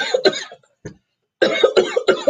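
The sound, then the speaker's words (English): A person coughing in a few harsh, rough bursts, first a pair, then a faint one, then a quick run of three, with no talk over them. “You finish coughing, that's why I'm trying to tell a story. You get interrupted and you still coughing.”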